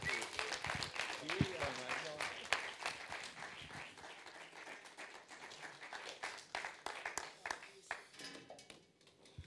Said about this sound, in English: So I would love it if you would stand up and give our dear friend Fini a huge welcome as he ministers.